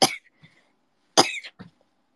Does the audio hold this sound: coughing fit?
yes